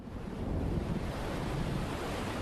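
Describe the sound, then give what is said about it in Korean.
Rough North Atlantic waves churn and crash in a continuous, heavy roar, with buffeting wind noise and a deep low rumble throughout. “거친 파도가 몰아치는 북대서양 앞바다.”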